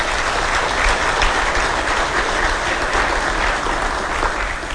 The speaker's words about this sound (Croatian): Molim jedan pljesak za njih.